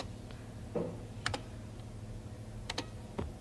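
Keystrokes on a computer keyboard as a short program is typed, a few sparse, faint clicks spread unevenly over a steady low hum.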